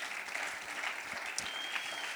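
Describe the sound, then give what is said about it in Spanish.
Congregation applause during a bilingual church service: dense, steady clapping of many hands running the whole clip at a fairly low level, with no clear pauses. “So give the Lord another clap offering. Del otro fuerte aplauso a Cristo.”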